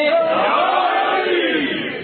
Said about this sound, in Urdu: امیر المومنین کا نام بلند آواز سے لیتے رہیے، بلند آواز سے نعرہ لگائیے، نعرہ حیدری،